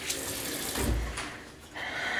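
Cool tap water running onto forearms at a sink, a soft rushing hiss that swells, eases off and swells again, with no voices.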